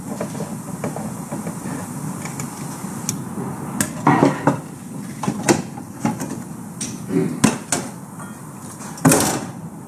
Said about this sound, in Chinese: 好，这底下有一个固定螺丝，我看能不能拿下来给大家看一看背面。